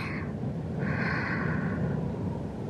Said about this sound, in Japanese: 深呼吸しましょうか。息を吸って